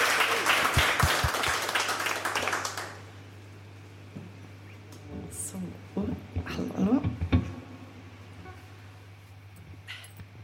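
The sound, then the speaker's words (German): Audience applause at a live Radio 1 concert, loud dense clapping for about three seconds that then drops away, followed by quieter talk and a few scattered sounds. “Also jetzt bitte nochmal einen donnernden Applaus”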